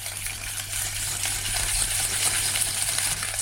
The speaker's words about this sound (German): Mit einem Schneebesen beginnt er zu schlagen.